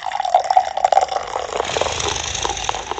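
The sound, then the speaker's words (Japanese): Beer poured into a Starbucks mug, a steady liquid stream that runs for about three seconds, with a bright splashing texture that stays fairly even throughout. “スタバのマグカップさんに、今日も注いでいきたいなというふうに思う次第でございます。”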